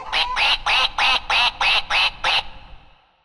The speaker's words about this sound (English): Once upon a time on the farm, there was a little duckling.